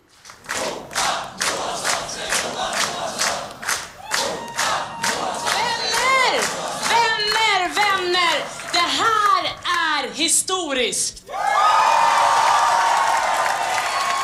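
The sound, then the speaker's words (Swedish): Liberal party supporters at an election-night watch party clap in a steady rhythm, then break into whoops and cheering voices, before a sudden swell of loud, sustained cheering and applause. “Så här lät det på deras valvaka när Simona klev upp.”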